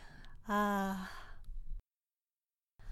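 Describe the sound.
A slow, deep exhale during an exercise routine opens as a short voiced sigh, trails into breathy air, then gives way to silence.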